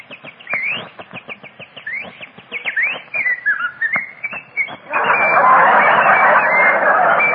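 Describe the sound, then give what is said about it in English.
Birds chirping and whistling in trees on a spring day in Southern California. Quick rising and falling whistled notes come in a busy string, then a dense, steady chorus of chatter takes over for the final few seconds. “the sun is sending down its glorious rays, while the birds are singing in the trees”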